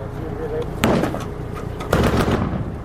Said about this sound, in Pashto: د ماښام تیاره لا نوې خپره سوې خو د ترینکوټ ښار په څنډو کې افغان سرتیري او طالبان پرې یو بل ډزې پیل کړي.